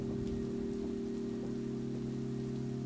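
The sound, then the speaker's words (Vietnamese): Heavy rain pours down in a continuous, faint hiss with no distinct drops or breaks. A constant low hum runs underneath, and there is no speech. “Lúc này cơn mưa vẫn cứ thế nuốt trọn mọi thứ, giống như có người đang trút những cơn oán hận, sự căm phẫn của mình lên đầu những kẻ sát nhân.”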